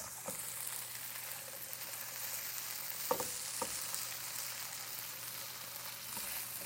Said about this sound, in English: Stir up these potatoes a little bit more.